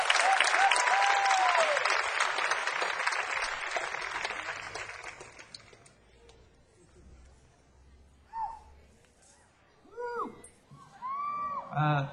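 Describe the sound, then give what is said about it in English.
Audience applause follows a performance, loud and dense at first, then thinning and dying away by about six seconds. A few brief voices speak in the quiet that follows. “Wasn't that great? Let's give a big round of applause. That was beautiful.”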